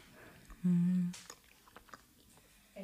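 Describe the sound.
A bite of almond-tonka (Mandeltonka) treat being chewed: a brief low hummed voice, then soft, scattered moist clicks and small crunches, faint and irregular.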